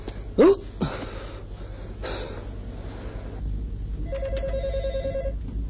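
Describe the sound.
A telephone rings once near the end with a steady, bright electronic tone lasting just over a second. Sharp gasping breaths and a few faint rustles come before it, and no one speaks.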